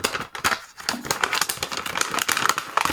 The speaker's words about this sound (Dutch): En jouw balanskleur zit in envelop nummer 2. Dus die mag je nu openmaken.